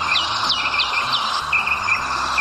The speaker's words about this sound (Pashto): افغانستان د بیلابیلو مرغانو کور خو د ښکار ویره هم ورسره ډیره ده.